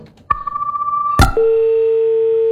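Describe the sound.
Telephone tone after a call is cut off: a pulsing tone, then a sharp click, then a lower, steady tone that holds alone.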